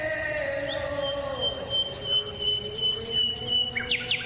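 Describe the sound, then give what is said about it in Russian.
A nightingale sings by a lake, faintly, in long sustained whistled notes that shift in pitch. A few quick, sharp chirps come near the end. “Что это? Соловей.”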